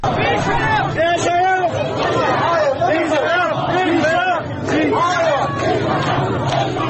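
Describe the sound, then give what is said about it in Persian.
A crowd of protesters shouts slogans in unison in front of a governor's office during a protest over Jina Amini. The chanting is loud and rhythmic, with raised voices overlapping in a steady surge throughout. “اونجا شروع میکنن به شعار دادن که صدای شعار رو با هم میشنویم.”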